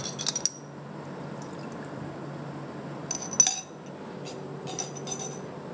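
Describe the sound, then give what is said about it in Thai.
Dissolved liquid ingredients are poured into a mixture for a homemade, no-heat eye-cleaning solution. The quiet pouring is joined by a few light clinks of glass or utensils. “แล้วก็ผสมตัวอื่นที่ละลายแล้วลงไปก่อนนะคะ”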